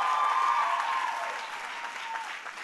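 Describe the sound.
Audience applause at a college commencement speech: dense, steady clapping that starts fairly strong and gradually fades over almost three seconds.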